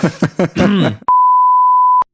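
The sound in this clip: A single loud, steady high-pitched electronic beep lasting about one second follows a short stretch of talk, then cuts off cleanly.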